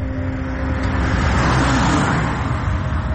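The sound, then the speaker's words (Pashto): A car passes by on a road near a seashore in Turkey. It makes a steady, broad rush of engine and tire noise that swells slightly midway and eases again, with no voices. “موټر تیر سو”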